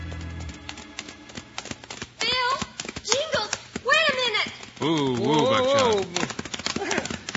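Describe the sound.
Horse hooves clip-clop in a steady rhythm as riders arrive in an old radio western drama, clear and alone at first, then continuing under people talking.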